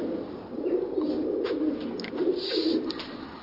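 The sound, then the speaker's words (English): Pigeons coo in a castle keep, a soft, low, continuous murmur of rolling coos in the echoey space. A few faint higher chirps sit above it, and no one talks. “And that's the sound of the pigeons.”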